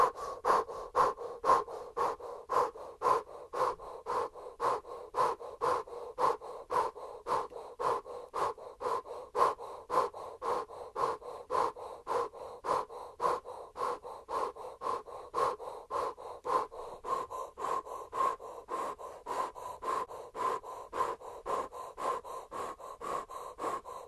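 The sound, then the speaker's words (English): Breath of fire yoga breathing: many rapid, forceful, rhythmic breaths pumping at a steady fast pace throughout, fairly quiet and with no talking. “Continue the breath of fire. Bring your arms out to the side. Straight arms like you're creating the letter T with your body and your arms. And continue the breath of fire.”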